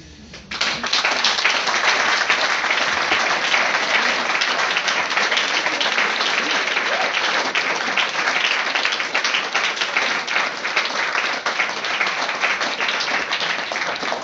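Audience applause starts abruptly and holds for many seconds: a dense, steady roar of many hands clapping, loud and even throughout, with no voices over it.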